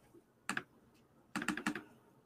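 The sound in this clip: Typing on a computer keyboard while entering damage into a hit-point field during a first tabletop role-playing game session: a quick pair of keystrokes, a short pause, then a rapid burst of several more, crisp and clicky, with no talk.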